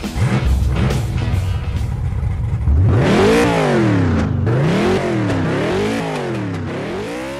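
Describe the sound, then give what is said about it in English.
A race car engine revs hard at a track start. Its loud, sweeping roar repeatedly climbs and drops in pitch, with no talk over it. “Strap in, window nets up, the pedals are down, and when the green flag drops, we go.”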